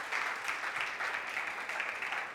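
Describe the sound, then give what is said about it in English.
Applause from a church audience during a morning service: dense, steady clapping from many hands, sustained evenly throughout. “let's give everybody a round of applause for finishing a good school year.”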